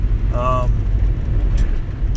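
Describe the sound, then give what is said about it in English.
A car driving down the road, heard from inside the vehicle: a steady, loud low-pitched rumble of engine and road noise that holds evenly throughout. “I'm driving my vehicle down the road, hence the name Hodgepodge Podcast on the road.”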